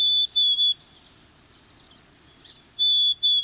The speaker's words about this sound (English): Black-capped chickadees sing a plaintive whistled song